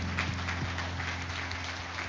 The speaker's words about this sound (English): Hey, give the Lord a good clap offering this morning.